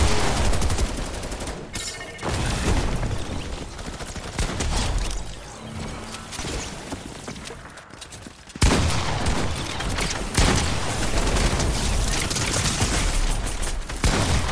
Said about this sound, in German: wie stark ist diese Waffe da? Na, diese Alien-Waffe, die ist immer anders stark geworden.